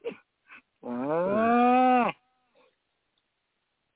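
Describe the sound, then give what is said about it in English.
A cow gives a single drawn-out, tonal moo lasting over a second, steady in pitch and loud against near silence, with a few brief faint sounds before and after. “Call that a cow.”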